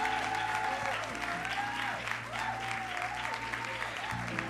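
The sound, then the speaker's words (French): A church audience applauds its pastor with steady, soft clapping throughout, while sustained melodic tones play underneath. “oui, est-ce qu'on peut se lever pour acclamer le pasteur?”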